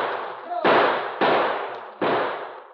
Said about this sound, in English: As the shots from behind the boulders came less and less frequently, and finally ceased altogether, Tully's men